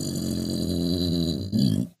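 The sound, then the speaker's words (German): A dog growls in a low, continuous rumble for about a second and a half. It then swells into a louder, rougher surge before cutting off abruptly. “Das war der Hund. Ach, das war der Hund, okay.”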